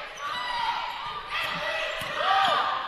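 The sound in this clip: A basketball dribbled on the court during a high school girls' game between the Lady Cavaliers and Harpeth Hall, a few soft bounces mixed with high sneaker squeaks over steady crowd noise.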